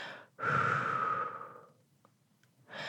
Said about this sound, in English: After each affirmation, blow your breath into the stone,